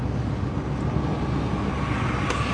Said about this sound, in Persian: دارم رانندگی میکنم خطریه.